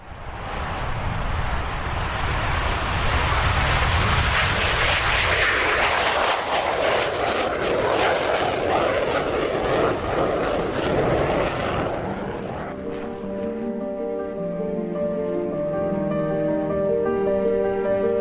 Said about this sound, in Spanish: No te puedes imaginar lo que es verlos en marcha, en la pista, a punto de despegar. Después de situarse en la cabecera, cogen velocidad y al cielo.